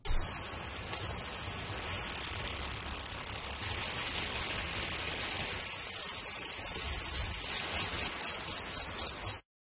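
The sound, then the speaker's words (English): Recreated Jurassic-era insect sounds: high, cricket-like chirps. Three separate chirps lead into a steady buzzing trill, which breaks into a quick series of rhythmic pulses before stopping abruptly. “a co-author of a new study that recreated the sounds made by various species of insects during the Jurassic era.”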